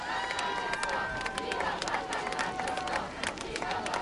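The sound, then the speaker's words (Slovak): A crowd at Bratislava airport shouts welcomes to Pope Francis, a steady, dense roar of many voices calling out together without a break. “zvolania ľudí, ktorí volajú svetému otcovi. Výva pápa Francesco, víta vás svätý otec, vítame vás.”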